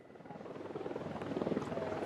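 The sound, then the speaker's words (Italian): A drone buzzes overhead with a rapid, pulsing whir that swells slightly louder over the short stretch. “Cazzo di drone.”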